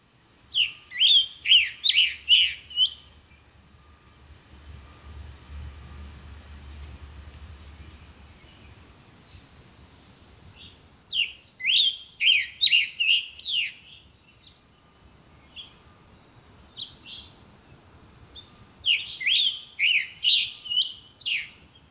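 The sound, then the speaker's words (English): Black-and-white warbler song, three bouts of thin, very high, rapidly repeated notes separated by quiet gaps. A faint low rumble sits under the gap between the first two bouts. “Black and white warbler.”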